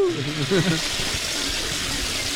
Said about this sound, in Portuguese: alguém puxou a descarga